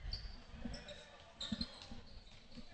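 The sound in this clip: Basketball dribbled on the court during a women's game: a few soft, dull bounces, faint beneath a murmuring crowd and voices.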